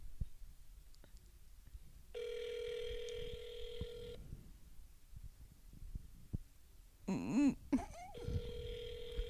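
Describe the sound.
Ringback tone of an outgoing telephone call: a steady buzzing tone of about two seconds, a gap, then the tone beginning again at the end.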